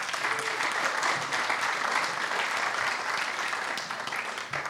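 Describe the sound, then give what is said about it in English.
Audience applause for a person at a gathering: a dense, steady wash of many hands clapping, loud and even for the whole stretch with no voices over it. “Will you give him a hand?”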